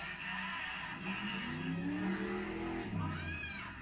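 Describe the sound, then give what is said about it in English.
A race car drives past outside, its engine rising in pitch as it revs through a sustained pass, then a brief high tire squeal at the end. “Hopefully you guys heard this race car outside. It was pretty cool sounding.”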